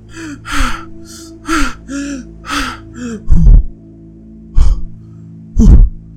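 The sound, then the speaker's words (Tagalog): Deep, loud breaths drawn on waking: a run of several short voiced gasps, then a few heavier, breathy inhales with pauses between. “Huminga ng malalim at sabay sabing,”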